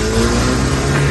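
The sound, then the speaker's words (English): A car's engine roars loud and steady as it speeds away from a courthouse, a brief burst with no voices. “Sped away as possible, and that is the sound of Rasheed Rice's car that he jumped into.”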